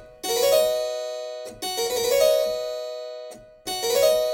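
A two-note chute, a Baroque falling ornament from a table of ornaments, is played three times on a keyboard. Each separate attack rings bright with sustained overtones and then fades before the next.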